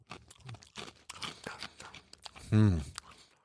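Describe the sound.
Crunching bites of corn-chip-like, high-fiber snack chips: a run of crisp, broken crunches, then a louder hummed vocal sound from the eater near the end.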